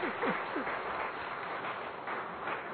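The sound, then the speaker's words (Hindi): Audience applause at a yoga and spiritual gathering, the crowd clapping for themselves: a fairly faint, steady wash of many hands with no distinct individual claps standing out. “इसलिए अपने लिए जोरदार ताली बजाइए”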